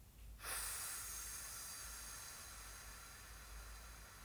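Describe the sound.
A slow, deep exhale during a breathing exercise: after a brief quiet moment, a long, steady breathy rush of air begins and continues softly, thinning slightly toward the end.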